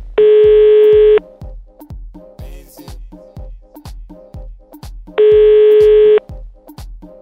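Telephone tone while a call is being placed, on a final attempt to reach someone: two steady, loud, one-second tones about four seconds apart, over a soft rhythmic ticking pulse that runs throughout.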